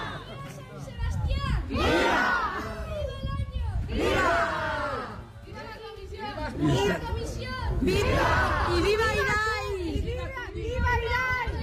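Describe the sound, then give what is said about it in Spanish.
Crowd cheers for a human tower (castell) at a village festival, many voices shouting and cheering in loud swells that rise and fall several times, with chatter underneath. “Ahora oímos los vítores del castillo humano del año.”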